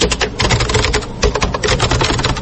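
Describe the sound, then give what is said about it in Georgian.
Rapid, continuous typing on a computer keyboard, with books being typed in by hand one page at a time for digitization. Many dense, fast clicks run without pause throughout. “ამიტომაც წიგნები ძირითადად სათითაოდ კლავიატურაზე ეკრიბება.”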